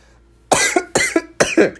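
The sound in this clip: Coughing from one person: three harsh bursts roughly half a second apart, each with a quick second hack, moderately loud and with no talk over them.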